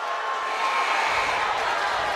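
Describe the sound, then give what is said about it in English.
A basketball crowd in Bakersfield roars after a dunk, a loud, continuous cheer that swells and fills out about halfway through. “That Bakersfield Gallup crowd's going crazy.”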